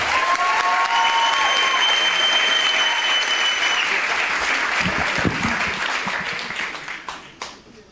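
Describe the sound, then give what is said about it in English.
Loud, sustained audience applause at a comedy show greets a comedian walking on stage. Thick clapping with a whistle runs steadily, then gradually thins and fades out toward the end. “Put your hands together and help me welcome Jesse Mundy.”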